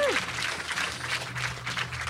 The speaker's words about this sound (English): Please give Jonah and Tash a huge round of applause.